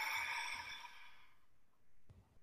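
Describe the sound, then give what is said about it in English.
A full breath is exhaled out through the mouth as a steady, airy whoosh. It fades out after about a second and a half and is followed by near silence. “Full exhale out the mouth.”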